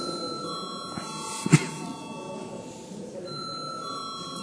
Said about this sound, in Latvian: Paldies, lūdzu zvanu.